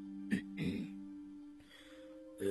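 A light cough, a brief throat-clearing from a person sitting in thought. It comes as a couple of short, soft bursts over a steady low background hum.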